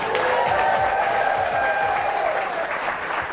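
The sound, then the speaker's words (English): A big ovation of applause and crowd noise for Green Bay Packers head coach Mike McCarthy at a live show after his team's first win in a month, with dense, steady clapping throughout. “Big ovation, Mike. First win in a month.”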